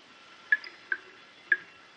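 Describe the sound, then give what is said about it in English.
Dirty water drips from the ceiling of a hot, wet prison cell: three faint, distinct drops fall at uneven intervals over a quiet, steady hiss. “The only sound is that of dirty water dripping from the ceiling.”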